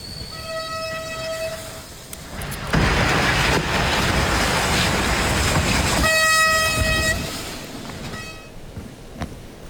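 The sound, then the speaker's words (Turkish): A fast passenger train carrying about 300 people rushes through with a loud, steady roar of wheels and rail. Long tonal horn blasts sound at the start and again near the end, with no talk. “Tam o sırada yaklaşık 300 kişiyi taşıyan tren hızla geldi.”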